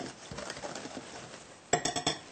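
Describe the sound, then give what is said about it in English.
A spoon stirs a teaspoon of salt into organic flour in a medium-sized bowl. Soft scraping and rustling give way to a few sharp clinks of the utensil against the bowl near the end. “First we'll add 1 teaspoon of salt and stir a little bit.”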